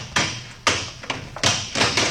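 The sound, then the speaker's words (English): Repeated blows as the lock on a small-town newspaper office door is smashed open, around six sharp thuds in an uneven rhythm. Each strike is fairly loud and dies away quickly, with no talk over them. “All right, Buck. Smash that lock.”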